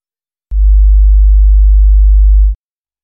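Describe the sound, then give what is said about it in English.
Electrical mains current at a 50-hertz frequency produces a loud, steady, deep hum. It holds unchanged for about two seconds, then cuts off abruptly, with a faint click at the start and at the end. “that current is maintained at a frequency of 50 Hz, which actually has a specific sound. I'll play it for you here, but do turn down your headphones beforehand because the sound can be kind of obliterating.”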